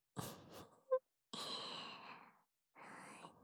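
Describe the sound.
Soft blowing breaths, faint and airy, come as three separate exhalations, the middle one longest, with a brief small click between the first two.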